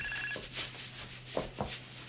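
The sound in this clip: A cell phone rings from inside a handbag: a short, faint electronic ring at the very start, followed by a few soft knocks.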